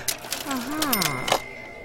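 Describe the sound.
A cash register being operated gives mechanical clatter and key clicks, with a voice heard over the clacking.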